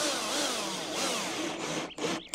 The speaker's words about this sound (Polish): tą końcówką samowiercącą, a resztę dokańcza wkrętarka. Tutaj są akurat bity PH2 potrzebne.